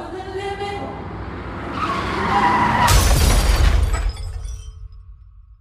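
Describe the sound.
A Lexus skids and crashes head-on into another vehicle. A rising tire screech builds to a loud, sudden impact with shattering glass, and the noise then decays and fades out.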